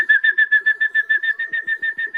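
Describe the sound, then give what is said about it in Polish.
Someone whistles a rapid, evenly pulsed trill to call hens to their food, a steady high-pitched note chopped into many quick repeats that run unbroken from start to end, with no talking. “ja te kury przywoływałam takim gwizdaniem i one przychodziły na obiadek i brzmiało to tak.”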